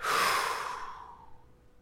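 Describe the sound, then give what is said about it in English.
A deep breath blown out, a loud breathy exhale that starts strong and fades steadily over nearly two seconds, with no talk over it. “let's just all take a deep breath and blow out”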